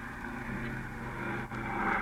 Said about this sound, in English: Gee, there it goes into the air. What a beautiful takeoff.